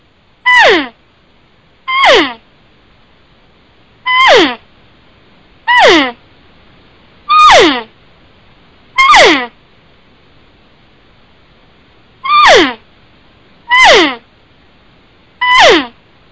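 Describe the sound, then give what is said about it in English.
Nine short mews blown on a hand call to imitate a cow. Each is a brief nasal note sliding downward in pitch, spaced fairly evenly, with a longer gap before the last three. “I'm not blowing it loud or dragging it out a lot. It's just kind of just that normal short mew that the cows do”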